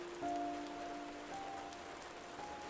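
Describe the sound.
Heavy pouring rain as a steady, dense hiss, fairly faint and even throughout, with a soft sustained tone running underneath.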